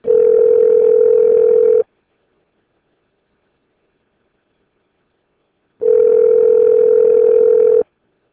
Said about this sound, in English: I'll try redialing.